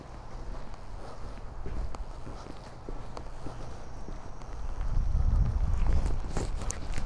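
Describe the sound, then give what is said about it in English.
Footsteps of a person walking outdoors, a steady run of soft crunching steps mixed with low wind rumble that grows louder and fuller toward the end. “I'll walk this way.”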